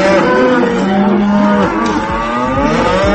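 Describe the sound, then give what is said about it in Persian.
Cows mooing loudly in several long, overlapping calls, deep drawn-out bellows with rich harmonic tone that shift in pitch, with no voices present. “این بار دیگه صدای گاوا رو هم درآوردید. بفرمایید لطفاً اعتراض گاوا رو به سیاست‌های اقتصادی گوش کنید.”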